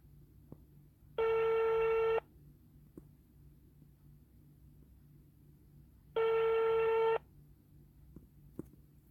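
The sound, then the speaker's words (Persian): Ringback tone of an outgoing telephone call placed for an interview: two evenly spaced rings, each about a second long, over quiet background hiss with a few faint clicks. “پس بریم که زودتر باشون تماس بگیریم و مصاحبه‌مون رو شروع کنیم.”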